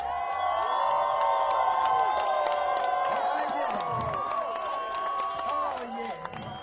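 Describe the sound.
Concert audience cheering loudly and continuously, with whoops, whistles and shouts layered over a dense roar of the crowd.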